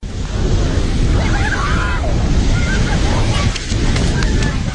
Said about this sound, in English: this is the sound of the torrent that swept over buildings in the valley.